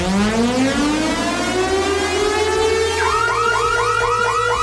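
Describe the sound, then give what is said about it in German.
A siren-like alarm jingle plays on a radio station to signal a festival ticket giveaway. A loud, continuous tone glides upward, then shifts into a repeating warbling wail from about three seconds on. “Und wenn ihr den Alarm hier hört,”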